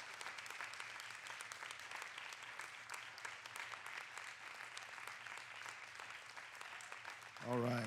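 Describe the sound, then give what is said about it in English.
A church audience claps on Father's Day to honour the fathers. The sustained, fairly quiet clapping runs evenly for several seconds before a voice breaks in at the close. “Can you put your hands together and give your fathers a hand clap of praise?”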